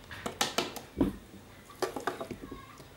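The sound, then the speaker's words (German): Spoon clinks against a pot and bowl as food is portioned from the pot into the bowl, a few soft, irregular metallic taps and scrapes at a low level. “So, ein bisschen tun wir jetzt in eine Schüssel.”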